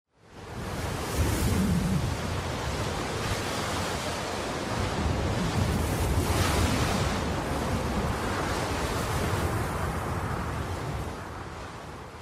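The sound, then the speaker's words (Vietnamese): Cold wind rustling through clumps of bamboo at the edge of a village: a loud, steady, airy rush that holds for the whole clip with slight swells, with no voices. “Gió lạnh xào xạc khẽ lung lay mấy cái bụi tre ở đầu làng.”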